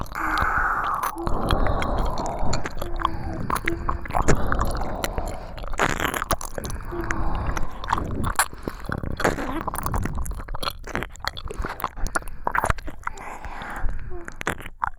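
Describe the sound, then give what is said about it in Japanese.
Wet ear licking in an intimate roleplay: many rapid slurps, smacks and clicks in an irregular, continuous stream, moderately loud throughout. “お耳舐められて、どうですか？”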